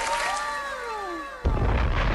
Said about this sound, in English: I had to wait for the explosion on that one.